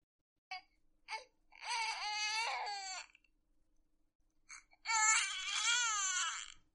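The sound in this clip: An infant crying: two short high whimpers, then a long wailing cry, a brief pause, and a second loud, sustained wail, heard alone without other voices.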